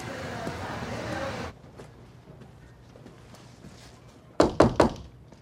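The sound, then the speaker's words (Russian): A door opening in a house gives a quick cluster of three sharp wooden clunks, loud against a quiet background, after a stretch of speech at the start. “босс с напарниками открывает дверь.”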